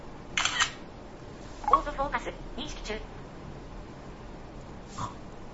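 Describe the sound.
Smartphone camera taking a photo with automatic flash: a brief crisp shutter click, with a voice speaking softly around it.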